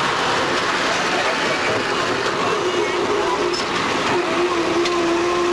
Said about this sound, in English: our super bus takes off again. We must roll down the road at about 30 miles an hour full speed.